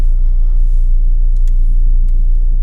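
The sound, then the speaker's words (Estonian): A car's engine gives a steady, loud, low rumble as it reverses out of a kindergarten gate on a frosty morning, with no talk over it. “täna oli see täiesti jäälilli täis ilma tagurdan siit lasteaia väravast välja.”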